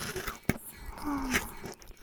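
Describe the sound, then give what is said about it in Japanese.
Crunchy chewing, with one sharp, crisp bite-crunch early on and a second softer crunch later, separated by quieter mouth noises. “もぐもぐ、シャクシャク、咀嚼されて、飲み込まれていく。”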